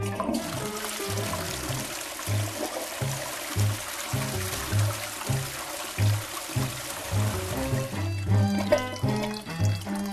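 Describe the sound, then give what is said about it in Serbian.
Water rushing from a flushed toilet flooding a hotel room, a steady broad hiss and gush lasting throughout, running beneath a rhythmic pattern of low, pulsing musical notes. “Masije Chevassie unezvereno povlači vodu koja zatim ispunjava sobu”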